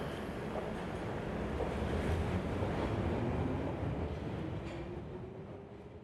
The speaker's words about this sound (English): Arriving in Brainford. Thank you for riding the Underground.